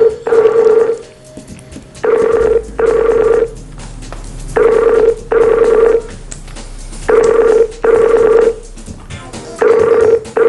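A telephone rings loudly with a clean electronic tone, repeating in a steady pattern of double bursts separated by short gaps.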